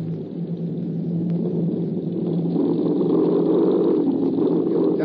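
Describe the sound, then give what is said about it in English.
Aircraft engines running after a forced landing give a low, steady, continuous drone that swells slightly in loudness toward the end. “As soon as we're stopped, you head her into the wind and keep the motors running while I'm gone.”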